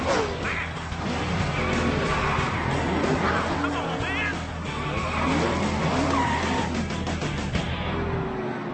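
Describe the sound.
Race cars touch and spin out mid-race, tires skidding and squealing through a dense, constant roar of engines, with brief wavering squeals rising out of the noise.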